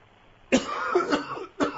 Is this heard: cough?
yes